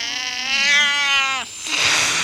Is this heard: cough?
no

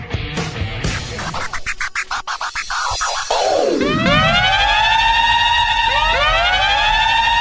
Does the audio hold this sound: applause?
no

